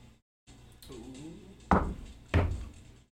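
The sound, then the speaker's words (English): Dice are rolled on a table for an attack roll, landing with two heavy, hollow thuds in quick succession after a quieter stretch. “Make an attack roll, both of you. I'm going to use the Kastar dice.”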